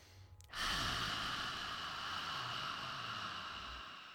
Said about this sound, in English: take a deep breath, exhale with that mouth open, and you're already feeling better. So that, my dears, is the 2% softer rule. And we even have 10 seconds left to take a breath.